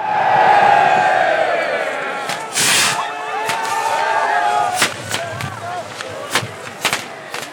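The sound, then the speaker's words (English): Flares going off and torches being lit at the start of the Up Helly Aa fire festival procession: a broad hissing burst and several sharp bangs ring out over a loud, murmuring crowd with voices throughout. “That's the sound of the flares going off and torches being lit at the start of the procession”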